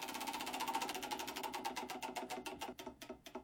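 Rapid mechanical clicking from a spinning prize wheel used for a Bundt cake birthday giveaway in Bend. Many sharp, evenly repeating ticks start fast and gradually spread apart as the wheel slows, with no voices.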